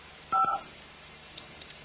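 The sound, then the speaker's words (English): Telephone keypad dialing: a single short, clear two-tone beep from a phone dial pad, followed by a few faint clicks. “I guess I'm too fast on the dial. I always a fast dialer, folks.”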